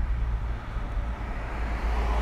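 A car driving, heard as an even, low road and engine rumble that continues without break and with no voices.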